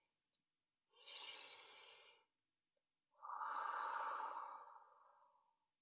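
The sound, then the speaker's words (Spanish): Deep, slow breathing during a relaxation exercise: two long breaths, a soft airy inhale and then a fuller, lower exhale, both faint, after a couple of tiny clicks. “Respiramos profundo.”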